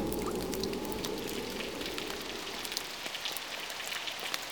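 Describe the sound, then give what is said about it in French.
Rain falling steadily, a dense patter of drops over a constant hiss that stays even from start to end, with no voices. “Quand j'entends le vent et la pluie,”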